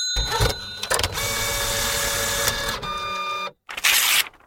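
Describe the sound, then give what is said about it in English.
A robot sound effect opens a listener mail segment with loud, steady mechanical whirring and buzzing laced with high electronic tones. It drops out briefly, then returns in one final harsh burst. “Here comes the robot. Here comes the listener mail.”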